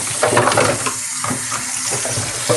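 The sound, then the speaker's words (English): Running water splashes and rushes as a peanut butter cup is washed out, a steady, fairly loud wash with small dips and surges in level throughout. “All right, let's wash out this peanut butter cup.”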